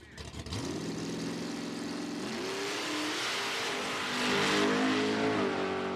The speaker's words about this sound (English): Now, you don't want to do that if your tank is almost empty. That will cost you $20 in gas right there. But you can see they're coming to line, and it's that acceleration